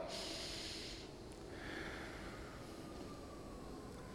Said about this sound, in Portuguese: Respira bem fundo comigo assim, ó. Respirou? Respira novamente, então.